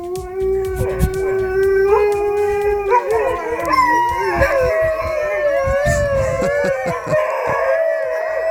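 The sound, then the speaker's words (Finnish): Twenty-six Siberian huskies howl together as a morning greeting: many overlapping, sustained, wavering howls at varied pitches, loud and continuous, with no talk. “että hyvää huomenta 26 Siperian Huskin tapaa. Mieti oikeesti.”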